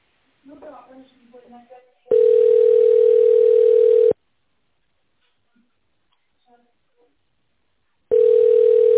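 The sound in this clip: Telephone tone while a call is connected: two long, steady, single-pitched tones of about two seconds each, separated by a long silence and preceded by brief talk.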